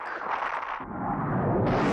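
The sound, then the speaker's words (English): The tank from Joe 90 opening fire, a TV sound effect: a dense, sustained roaring blast of rumbling noise that stays loud throughout, dropping into a darker, heavier tone partway through before brightening again near the end. “The tank from Joe 90 has opened fire. But of course, nothing can stop the AquaTank.”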